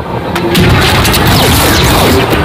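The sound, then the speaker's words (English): Blaster bolts fire in quick succession: several short zaps fall in pitch, cutting through a loud, continuous roar of crashing noise. “I had to include the blaster bolts. So pew, pew, fast.”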